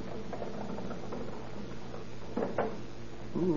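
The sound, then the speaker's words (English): A pass key working an apartment door lock, then the door opening: a couple of faint, quick clicks in the middle over a steady background hiss. “Let's see if that pass key works.”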